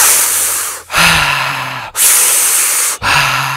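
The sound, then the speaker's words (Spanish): Deep breathing through a wide-open mouth during a breathing exercise, with loud, airy rushes of air about a second each in a steady, unbroken rhythm and only brief dips between them. “en ese momento desactivas la nariz para respirar y activas la boca para respirar. Abres la boca con profundidad.”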